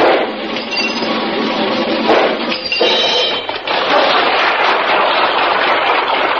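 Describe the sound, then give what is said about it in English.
A dense, unbroken barrage of gunfire mixed with clinking, crashing impacts as a trick shooter, back to the target and firing between his legs, hits clay pipes mounted on a revolving wheel. The loud crackle holds steady throughout. “will attempt to shoot the tops off these clay pipes, which, as you can see, are attached to a revolving wheel.”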